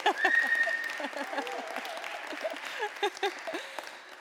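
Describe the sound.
Audience applause at a morning event: steady, dense clapping that carries through the whole stretch, staying fairly even in loudness with a few louder bursts near the end.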